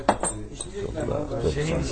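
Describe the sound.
Glasses and dishes clink at a table where drinks are being poured and shared, a few sharp chinks over a steady clatter of tableware.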